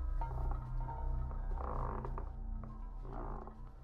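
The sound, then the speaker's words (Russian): Creaking floorboards and a spinning wheel in an old house: faint ratcheting clatter and creaks drift over a low steady drone. “Скрипят полы и плачет прялка.”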